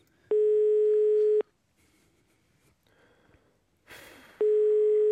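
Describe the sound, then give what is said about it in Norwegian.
A telephone ringing tone sounds while a call is being placed: two steady, mid-pitched beeps about a second long, one near the start and one at the end. A long quiet gap between them holds only faint rustling. “vi prøver bare å ringe vedkommende nå”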